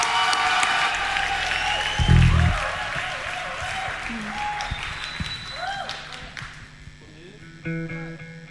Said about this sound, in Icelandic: gefa þeim gott klapp